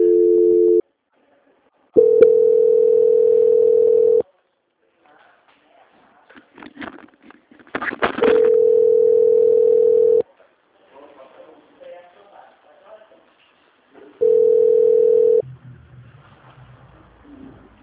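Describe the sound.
A telephone line tone sounds during a call transfer: four steady, low-pitched beeps lasting about one to two seconds each, separated by gaps holding faint, muffled sounds.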